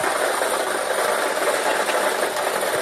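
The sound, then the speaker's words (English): A lottery draw machine spins its balls for a daily draw, making a steady, loud, dense whirring rattle. The sound holds at an even level throughout with no talk. “Let's get these balls spinning so you can start winning.”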